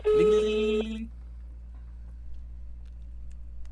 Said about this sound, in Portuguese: Agora eu tô ligando pra mulher dele, tô ligando pra mulher dele agora.